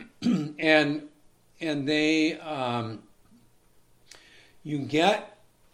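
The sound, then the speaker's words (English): Throat clearing from someone who had eaten cereal beforehand: a few voiced, gravelly clearing sounds in separate bursts, with short pauses between them. “excuse me, I made the mistake of eating cereal this morning beforehand, so I'm going to be clearing my throat a lot.”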